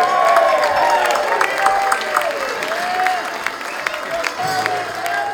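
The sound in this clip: A concert audience gives steady applause after a band's songs. Dense, continuous clapping fills the whole stretch at an even level, with a voice briefly heard over it.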